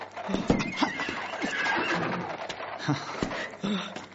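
A horse whinnies in a long, wavering, high call, with a few soft hoof knocks around it.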